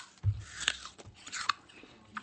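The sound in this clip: Crisp bite and chewing of a juicy Sun Fuji apple from Shinshu, cut horizontally into star-cut round slices: a few sharp crunchy cracks and soft chewing noises at moderate level, with no talk.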